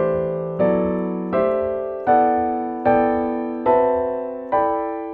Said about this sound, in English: harmonized the entire C major scale. When we put it all together, it sounds like this.